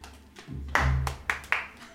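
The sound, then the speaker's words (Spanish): A few scattered claps from the audience at an event about artificial intelligence, as a guest speaker is introduced. Sharp separate hand claps rather than sustained applause. “Un aplauso, por favor.”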